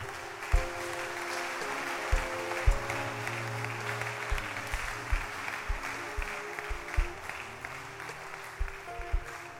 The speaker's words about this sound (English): Oh, clap your hands for them.